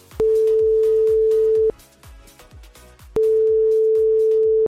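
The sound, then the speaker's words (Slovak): Ringback tone of an outgoing telephone call: two long, steady mid-pitched beeps separated by a pause of similar length, heard over a rhythmic, thumping music beat in the background. “A veď ideme volať.”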